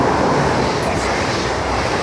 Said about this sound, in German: Während hinter ihnen ein ICE vorbeidüst.